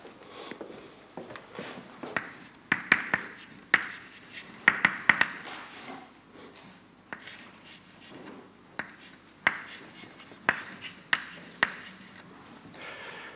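Writing on a board as a force-balance equation is worked out: irregular scratchy strokes and many short, sharp taps, fairly quiet, with no talking.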